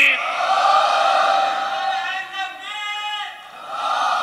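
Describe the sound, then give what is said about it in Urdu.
A crowd shouts a religious slogan loudly in unison, with massed voices in a sustained, wavering roar that dips briefly in the middle and then swells again. “ذرا ہاتھ اٹھا کے نعرہ ہے دھری۔ اس سے بھی بلند آواز سے پوری طاقت کے ساتھ نعرہ ہے دھری۔”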